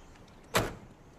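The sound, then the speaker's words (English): A car's passenger-side door shuts once after someone climbs in: a single short, solid thud standing alone over a faint, steady background hiss. “She climbs in, and he shuts the door.”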